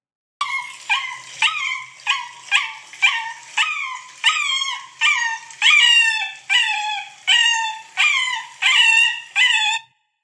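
A dog howls during a bath. It gives a long series of drawn-out, high, wavering howls, many in a steady rhythm with short gaps between them, loud and alone with no talking.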